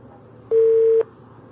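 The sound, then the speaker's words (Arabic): Telephone busy tone after a dropped call: one steady, even electronic beep lasting about half a second, then silence, then the start of the next beep, alone with no voices. “واضح ان اتصال قطع.”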